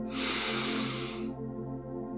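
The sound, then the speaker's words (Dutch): A slow, deep inhale through the nose during a guided relaxation breathing exercise: a soft, airy rush lasting just over a second, over gentle sustained background music tones that continue after the breath ends. “Adem diep door de neus in”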